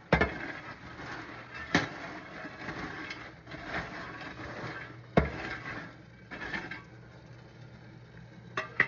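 Popcorn is stirred in a pot with a soft, continuous rustling scrape, broken by a few sharp clanks of the utensil against the pot, fairly quiet overall.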